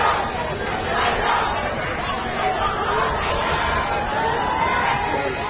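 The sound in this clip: Crowd roar from some 7,000 spectators at a cricket final in a stadium: a dense, even wash of overlapping chatter and shouting that holds at a steady level throughout.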